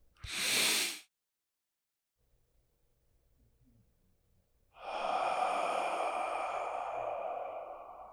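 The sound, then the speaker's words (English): Breathing in during a guided heart-focused meditation: a short breathy puff, a quiet pause, then a long, steady airy inhale that lasts several seconds. “Breath in.”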